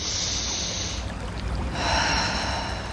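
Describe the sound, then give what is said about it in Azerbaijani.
A deep breath drawn in during a guided relaxation exercise makes a soft, airy hiss that swells in two stretches. It is quiet and heard on its own, with no voice. “Dərindən nəfəs alırıq,”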